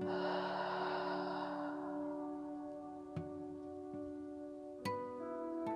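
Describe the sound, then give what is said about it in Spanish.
A deep breathing exhale during a guided breathing exercise, a long breathy rush of air lasting about two seconds over a steady sustained musical drone, followed by the drone alone with a few faint clicks. “Exhala. Inhala. Exhala.”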